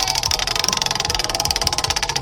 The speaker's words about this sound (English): would you like to spin the wheel? Let's spin it!